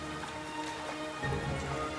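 Rain falling in a forest makes a steady, dense patter and hiss that holds even throughout, with a slight swell in the lower rumble partway through. No voices are heard.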